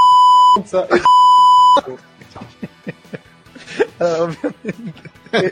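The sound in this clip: Two steady, high-pitched censoring beeps, each under a second long, cover parts of people speaking Italian, and the talk carries on after them.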